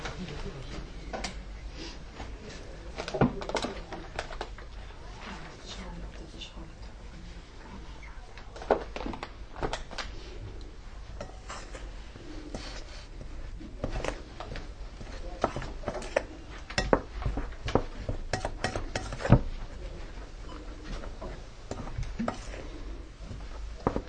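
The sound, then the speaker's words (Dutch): A spoon stirring and scraping in a cooking pot, many irregular clicks and knocks against the pot over a steady low background. “En dan gaan we dat eerst doorroeren voordat we er iets anders aan toe gaan voegen. De lepel.”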